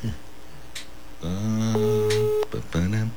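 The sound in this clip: Telephone call ringing out: a steady electronic tone holds for under a second, with a voice heard around it and another brief burst near the end.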